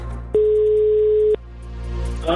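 A telephone ringback tone sounds while calling someone back: one steady, mid-pitched electronic tone lasting about a second, loud and alone over a faint background hiss.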